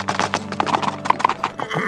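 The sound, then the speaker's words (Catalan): Hooves of a fast saddled horse gallop in a rapid, rhythmic clip-clop, many quick beats at moderate loudness. “va guarnir i ensellar el cavall més ràpid que tenia a l'estable, i va muntar, i d'una sola tirada se'n va arribar a la caseta vora el bosc”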